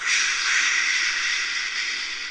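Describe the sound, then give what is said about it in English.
A voice imitates white noise with a steady hissing shush, a bright, even rush of breathy sound held for about two seconds with no break, alone. “I could make some white noise for you, I said helpfully, and followed by saying something like,”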